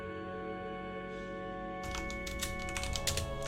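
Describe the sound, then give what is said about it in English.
Typing on a computer keyboard: quiet, rapid, irregular key clicks that begin partway through over a steady low hum. “Almost done typing.”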